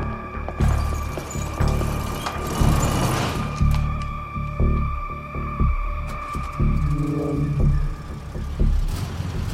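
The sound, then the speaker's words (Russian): Green car engine rumbling as it drives out of a garage and stops, a low continuous drone with a steady hum that swells and dips in loudness throughout, with no talk. “Маки выезжает на зеленом автомобиле. Останавливается и закрывает гараж.”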